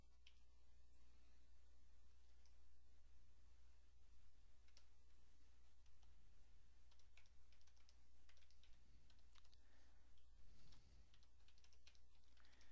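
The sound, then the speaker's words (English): Typing on a computer keyboard while entering a name into a web search page: a long run of rapid, uneven key clicks over a steady low hum, with no talk. “Let me type my name.”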